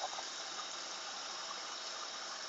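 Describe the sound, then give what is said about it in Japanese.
Running water as a double-walled vacuum stainless steel beer tumbler is washed: a steady, fairly quiet rush of water with no talk. “ビールのタンブラー。真空のステンレスですかね。これは二重構造のタンブラーを洗ってます。”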